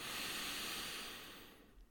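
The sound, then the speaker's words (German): A single long breath, part of a mindfulness exercise of inhaling through the nose and exhaling through the mouth: a soft, airy rush that is steady at first and then gradually fades away. “durch die Nase ein und durch den Mund aus. Und du darfst jetzt auch gerne die Augen schließen. Nochmal durch die Nase ein”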